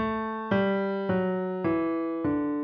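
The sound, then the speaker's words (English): Five sustained piano notes step downward in pitch, evenly spaced and each ringing until the next, played as a low-range vocal warm-up pattern. “We'll sing five notes going down with the piano like this.”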